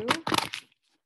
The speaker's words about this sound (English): I'm using the Sacred Rebels Oracle for this message. And I'm going to shuffle 3 times.